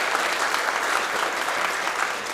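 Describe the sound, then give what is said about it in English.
Applause from a church audience welcoming new members after a candle ceremony, a full, even burst of many hands clapping that stays steady and moderately loud throughout. “Y'all can blow out your candles now, and we hope that you'll, oh, they're going to applaud you. Yay.”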